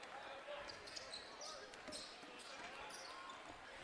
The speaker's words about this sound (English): And the Maroons dribble in the front court.